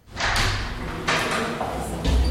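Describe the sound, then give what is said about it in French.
A radio room door is pushed open: a few dull thuds and rushing scrapes of movement, ending with a heavier low thump. “Je pousse la porte du local de la radio.”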